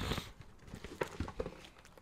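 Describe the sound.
Bubble wrap is unwrapped from a package with soft, scattered crinkles and a few sharp little pops and crackles. The sounds come in irregular bursts and stay faint.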